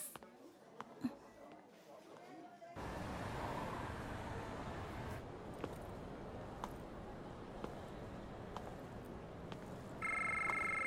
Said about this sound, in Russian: Входящий вызов.